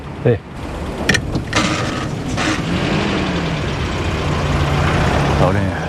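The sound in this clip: A car starts with a few brief knocks and clatters, then its engine settles into a steady, broad rumbling drone as it drives off.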